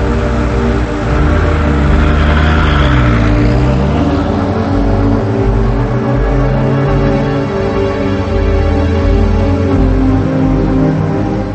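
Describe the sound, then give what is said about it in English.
A car engine drones steadily at a constant loudness, with a low rumble and layered tonal hum, and a brief dip in pitch early on. “He drives away.”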